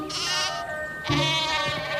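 A sheep bleats twice, two drawn-out, wavering calls rich in harmonics, loud and clear with no talk over them.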